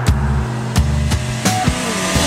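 A car speeding along a toll road, with a steady low engine and road drone running throughout and a few brief thumps cutting through it.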